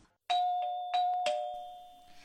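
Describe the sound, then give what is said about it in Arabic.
A doorbell rings at the door of a family home: a few bright chime strikes, each leaving a steady ringing tone that slowly fades, with no voices. “وفعلا وبعد دقائق من الموعد سمع الكل جرس الباب يطرق.”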